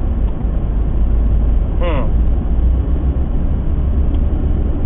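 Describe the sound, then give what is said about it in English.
A car driving in slow highway traffic near Fife, Washington, on the way to Portland: a constant, loud low rumble of engine and road noise with a dull, muffled tone. “Driving to Portland right now, with a bunch of boxes to hand off to a distribution team. Traffic is moving pretty slow.”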